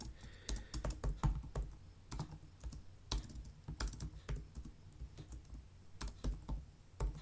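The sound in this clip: Typing on a computer keyboard: many quick, irregular keystrokes and clacks in uneven bursts, fairly faint, with no voices.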